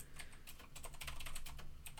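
Typing on a computer keyboard, with a quick, uneven run of light clicks and clacks that stays faint and steady throughout, with no voices.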